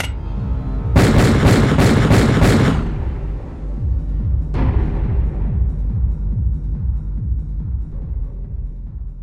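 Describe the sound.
Gunshots ring out in a rapid volley of loud, sharp bursts, followed a moment later by a single further shot over a low rumbling background.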